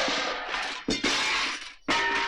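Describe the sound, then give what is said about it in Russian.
Glass from greenhouse frames shattering: three loud bursts of bright crashing and tinkling debris, each lasting close to a second and split by brief silent gaps. “На этот раз послышалось 2 вопля. И снова посыпались стекла.”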